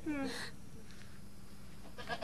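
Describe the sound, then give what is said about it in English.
A goat bleats faintly in two short calls, a wavering cry at the start and a brief one near the end. A low, quiet background fills the gap between them. “Wow, this really is a goat.”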